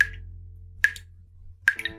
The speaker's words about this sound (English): Not only is it annoying, but that leaky faucet can cost you a lot of money.